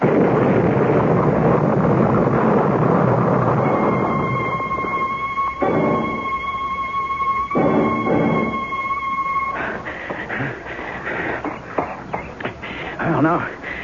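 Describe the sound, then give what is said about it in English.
A bomb explosion's heavy, broad roar fills the opening seconds and slowly thins out. A steady high ringing tone and talking voices follow. “You know that bomb was meant for me.”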